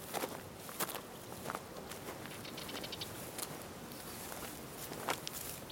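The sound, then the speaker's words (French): Footsteps of people walking along a main street, soft, irregular steps over a steady background hiss, with no talking. “Remettons-nous en marche en continuant sur la droite par la Grand Rue.”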